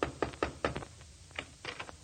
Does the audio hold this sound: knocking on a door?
yes